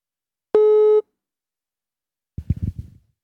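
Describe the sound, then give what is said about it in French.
Telephone ringing tone during a call: a single steady electronic tone lasting about half a second, followed after a pause by a brief burst of low, muffled noise. “Ça sonne. Ça sonne. Il va pas répondre.”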